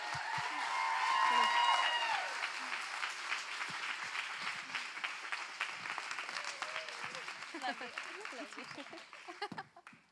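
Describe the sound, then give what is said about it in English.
A crowd stands and applauds to welcome a woman speaker onto the stage at a faith gathering, with dense, steady clapping that holds for about ten seconds before thinning near the end. “why don't you guys welcome her up tonight? Let's stand up and give her a round.”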